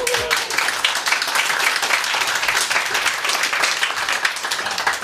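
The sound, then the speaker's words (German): An audience in Horb bursts into applause, a dense, steady wash of clapping that holds at an even level for about five seconds. “Das sind alles gar keine Horber, aber sie haben trotzdem geklatscht.”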